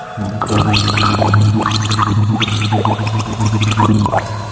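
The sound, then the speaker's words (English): A person gargles water while trying to carry a tune: continuous wet bubbling and sputtering with a wavering hummed pitch underneath, steady and fairly loud for about four seconds. “We should do a, a gargling feature where we guess the tunes.”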